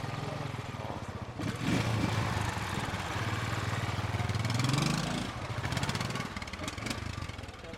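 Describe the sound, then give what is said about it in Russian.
Motorcycle riding past, a continuous buzzing engine drone that swells in loudness, its note climbing briefly near the middle before settling back. “Мимо проезжает Скар на мотоцикле.”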